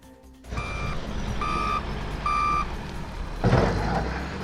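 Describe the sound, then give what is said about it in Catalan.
An excavator demolishing drug-dealing huts in the Son Banya settlement in Palma gives three evenly spaced reversing beeps over a low engine rumble, followed by a sudden louder noise. “Aquest so és d'avui, el mateix que sonava al poblat fa 2 setmanes. Les excavadores han tornat a tomar 7 casetes de venda de droga en grans banderes d'Espanya.”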